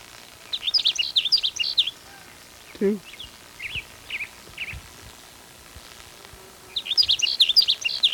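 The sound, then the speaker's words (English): A sage sparrow sings in two bursts of high, thin, rapid trilled phrases at the start and end, with a few fainter chirps between them. “There's a sage sparrow that's singing near where the blackbird sparrow is.”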